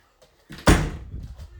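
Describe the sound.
A door is shut with one heavy thud, followed by fainter rattling and knocking as it is secured, presumably locked.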